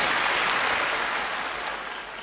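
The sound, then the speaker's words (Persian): Audience applause forms an even, dense wash of clapping that holds steady and tapers off slightly toward the end. “یه دست برای آقای محسن پور بزنید.”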